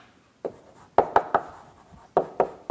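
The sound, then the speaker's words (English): Drawing strokes on a board as a graph is sketched in a maths lecture: several short, scratchy taps and scrapes in quick bursts, separated by quiet gaps, with no talking. “And let me draw a picture of this. So here's the graph of log x.”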